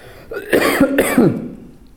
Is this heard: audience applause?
no